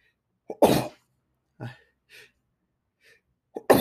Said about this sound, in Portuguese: e também acho que eu vou espirrar.